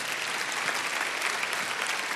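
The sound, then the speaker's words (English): Audience clapping at a church service fills the whole stretch as a steady, dense, even patter of many hands, with no pauses or talk. “Well, come on, you can clap a little better than that.”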